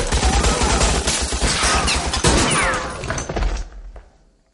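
Gunfire rattles in a shootout during an action-comedy spy scene: dense, rapid shots and crashes crowd together loudly, then the noise thins and fades away near the end.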